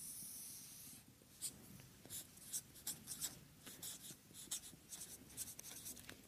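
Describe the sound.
Handwriting by hand, faint scratchy pen strokes and short scrapes in irregular bursts after a second of quiet hiss, with no voices over them.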